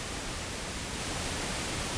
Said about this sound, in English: Google the Nest has got some sort of white noise on it.